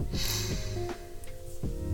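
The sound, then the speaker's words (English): A quick deep breath in: a short, airy inhale near the start over a steady tonal hum, followed by quieter sustained background. “I'm gonna do a little deep breath like we do at the start of every episode, and I always forget to do it, but this time I remembered, so we'll do a quick deep breath in”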